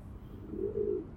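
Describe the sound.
A pigeon cooing in a park, one soft, low, warbling call that swells briefly above faint background noise.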